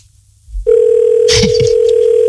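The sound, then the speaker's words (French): A telephone rings: after a brief low thump, a steady ringback tone starts and holds to the end, with a short burst of other noise over it midway. “J'espère qu'on va pas se taper 800 sonneries, quoi.”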